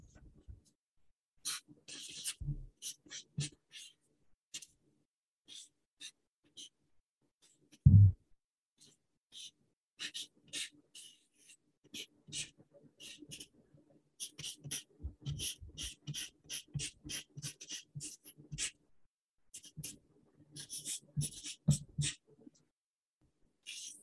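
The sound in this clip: Hand-writing strokes scratch in short, irregular bursts throughout, many quick dry scrapes separated by pauses, with one louder knock partway through and faint murmuring in the background.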